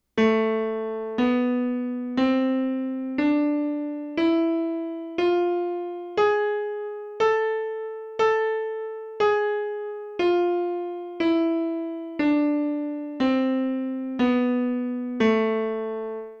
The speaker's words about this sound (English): The next type of minor scale is called the harmonic minor scale, and it's identical to the natural minor scale except that the 7th tone of the scale is raised a half step. It sounds like this.